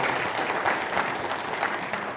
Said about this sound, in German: Nehmen wir einen Applaus mit. Vielen, vielen Dank.